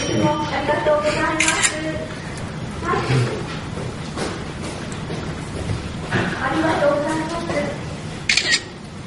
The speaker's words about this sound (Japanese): 映えな。iPhone10 で撮る映え写真。